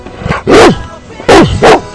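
A dog barking: three loud, sharp barks in an uneven rhythm, after a fainter yip at the start.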